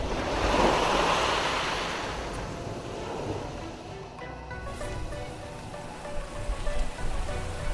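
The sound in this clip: Sea waves surge and rise with a continuous heavy roar of surf, loudest at the start and then settling into a steady rushing wash with gusty, wind-like noise.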